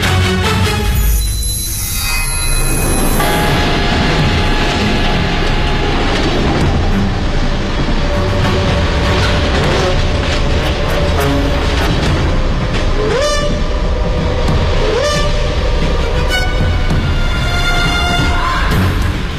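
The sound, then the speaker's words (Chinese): Train rumble from a 1930s train arriving at a town near Jiamusi, Heilongjiang: a steady, loud rolling clatter fills the whole clip, with high tonal whistling lines running over it. “1933年3月，一列火车开到黑龙江省佳木斯附近的永丰镇”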